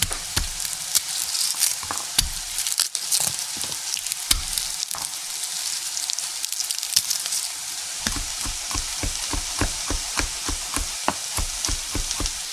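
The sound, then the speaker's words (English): Eggplant, onions and garlic sizzle in a pan over medium-high heat, a steady bright hiss broken by many quick clicks and scrapes of stirring, more frequent toward the end. “Once the eggplant has browned a little bit, we can add our onions and our garlic.”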